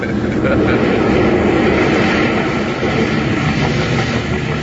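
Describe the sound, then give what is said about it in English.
An airplane lands and taxis along the runway on arrival in London, making a loud, steady, broad engine roar throughout. “There we are, on the ground again, pulling right up the runway.”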